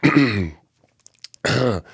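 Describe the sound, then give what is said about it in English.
Throat clearing and coughing as a coughing fit comes on, in two harsh voiced bursts separated by a few faint clicks and breaths. “And here I am again. The one time I don't want to have a coughing fit. The recording of the podcast. And it's coming on.”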